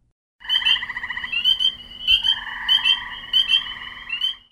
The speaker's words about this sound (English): That's the sound of frogs in spring, looking for mates to produce frog eggs